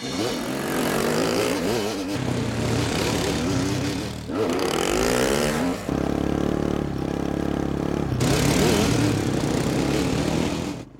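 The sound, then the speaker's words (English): Small engines of an ATV and a dirt bike ride along overgrown wartime dirt roads deep in a forest, revving loudly in several long bursts with rising pitch, separated by brief dips. “borrow an ATV and a dirt bike from the owner of the rifle range, and we hit the road.”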